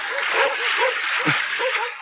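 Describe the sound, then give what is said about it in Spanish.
Dogs swimming among ice floes give several short yelps and whimpering barks, partly masked by a steady, loud rushing wash of water. “¡Dejen de ladrar y naden! ¡Naden!”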